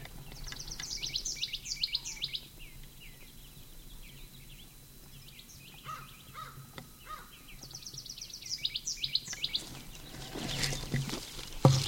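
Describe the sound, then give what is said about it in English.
Bird calls at Upper Moline Gulch: bursts of high, quick chirping notes at the start and again near the end, with quieter scattered calls in between over a faint background. “Upper Gulch bird.”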